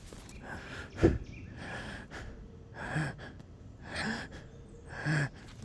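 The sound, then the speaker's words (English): A person imitates the shallow breathing of someone high on drugs, with a quiet run of short, quick breaths and gasps at an uneven pace, one sharper than the rest. “And then recognizing they have shallow breathing. It doesn't take very long to notice someone has shallow breathing. They sound like this.”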